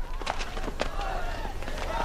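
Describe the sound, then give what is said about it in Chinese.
Running feet of a group of people doing laps during a training session, a steady patter of footfalls with a few sharper steps standing out, with voices in the background. “今天第一项训练，所有人跑20圈，开始。”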